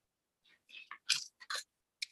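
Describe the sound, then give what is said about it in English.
Someone turns a paper page close to the microphone, making several short, crisp crinkling and rustling bursts that stand out clearly against silence. “I'm going to physically turn a page by a microphone.”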